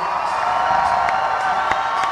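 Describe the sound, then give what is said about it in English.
A crowd applauding and cheering, with steady dense clapping and a few sharp whoops rising above it throughout. “And everybody give a big round of applause for Kevin's new son, Miles.”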